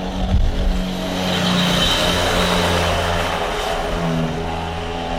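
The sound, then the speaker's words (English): Motor vehicle traffic in the streets of Djenné, a continuous rumbling engine drone with a car revving through it, steady and fairly loud with no voices. “As you can see, we're dominated by motor vehicles now.”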